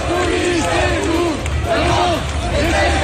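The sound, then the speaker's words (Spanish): A protest crowd in Lyon, France, demonstrating against the lack of investment in education, chants in loud unison, with voices rising and falling in repeated sung phrases over a constant crowd roar. “este es el sonido de Lyon, donde ha habido protestas, no solo en Lyon, en realidad en todo el país, contra la falta de inversión en educación.”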